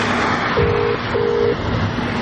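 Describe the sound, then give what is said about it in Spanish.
Telephone keypad tones as a driver dials a call from his car: two steady electronic beeps, each about half a second long, over a constant low hum. “Luego vuelve a abrir la carpeta y mira un POSIT pegado en uno de los documentos. Entonces hace otra llamada.”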